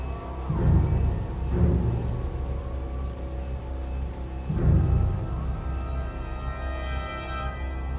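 Steady rain pattering onto earthen ground at night, with a few deep thunder rumbles swelling up and fading beneath the constant hiss of the downpour.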